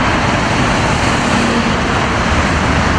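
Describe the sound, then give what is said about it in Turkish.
Heavy, slow-moving traffic on the D100 highway in Istanbul on the first workday after a holiday, heard as a loud, dense, unbroken roar of road noise with no distinct separate events. “D100 karayolunda araçlar ilerlemekte zorlandı. Trafik dakikalar ilerledikçe arttı.”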